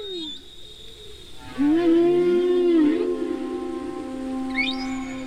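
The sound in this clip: An arctic whale calls with a long, low, moaning tone rich in harmonics. The tone begins abruptly after a quiet start, wavers slightly and holds steady to the end, and brief high upswept squeaks appear near the close.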